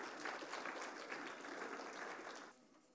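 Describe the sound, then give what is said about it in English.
An audience applauds to welcome a guest onto the platform. The steady, quiet clapping holds evenly, then fades away in the last half-second. “Can we just welcome Amy? Let's show our appreciation to Amy as she comes.”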